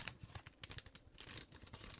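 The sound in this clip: Paper crinkling and tearing as an envelope holding a letter is opened, a quiet run of many short rustles and rips with no voices.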